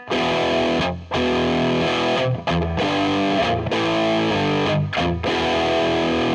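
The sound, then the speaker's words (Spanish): Heavily distorted electric guitar through a Marshall Plexi JCM800 amp and a normal cabinet plays loud, sustained chords with a few short breaks between them. “También tenemos el Marshall Plexi, el JCM800. Veamos cómo suena este con la cabina normal y luego con impulso de respuesta.”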